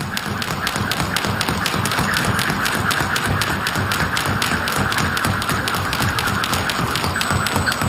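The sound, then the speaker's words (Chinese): Skipping ropes slap the floor during a rope-skipping competition race, with two athletes turning a lengthened rope. Many crisp, fast taps keep an even, unbroken rhythm throughout, loud over steady background noise. “我们右侧的广州市聚德中学的两位运动员在摇绳的时候，可以看到手也是打开的非常大，但他们绳子相对调得更长一些，这样的话落地面积应该是够的。”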